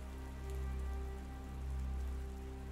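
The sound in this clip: Light rain falling near dawn, a faint, steady soft patter with gentle swells in level and no other sounds.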